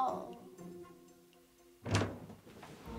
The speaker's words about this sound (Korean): 야, 문 닫고 가.